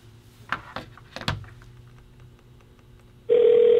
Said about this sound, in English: We're ringing.